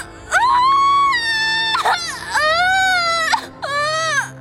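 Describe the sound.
A newborn baby cries just after birth in three loud, wavering wails, each bending in pitch, with short gasping breaks between them.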